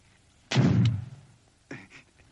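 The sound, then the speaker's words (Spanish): Two gunshots ring out as a rider enters a Western town firing. The first is loud with a booming tail, and the second, a second or so later, is sharper and softer. “Tiempo después, un extraño jinete entra en el pueblo disparando.”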